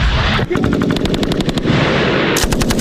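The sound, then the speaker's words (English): Machine gun fire from war film footage: loud, rapid bursts of shots in a fast, clattering rhythm that run almost without a break across the whole stretch. “You guys saw some machine guns now, okay? Yeah. Ready for some machine guns?”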